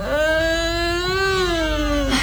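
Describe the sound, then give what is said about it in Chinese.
An infant cries in one long, loud, sustained wail. Its pitch rises slightly, holds, then drops at the end. “别哭了，别哭了，额吉在这儿呢。”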